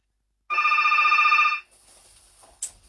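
A telephone rings once on a radio call-in line: a loud, trilling electronic burst lasting about a second, followed by faint hiss and a single click.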